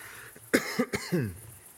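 A few short, harsh coughs come in a quick cluster, each a rough burst with a rasping tail. They are moderately loud against a quiet background with no talking.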